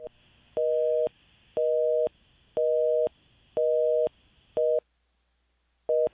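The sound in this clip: Telephone busy tone after a dropped phone-in call: a steady, evenly spaced series of identical mid-pitched beeps, each about half a second long, broken by a longer gap near the end before the beeping resumes.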